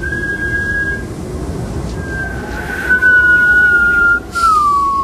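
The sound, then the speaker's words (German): Wind whistling over the rocks of an island: thin, high, sustained whistles that drift slightly downward in pitch, layered over a constant low rushing rumble. “Der Wind pfiff einsam über die Felsen der Fasteninsel.”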